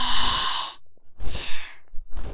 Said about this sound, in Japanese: 息を吸って、吐いて、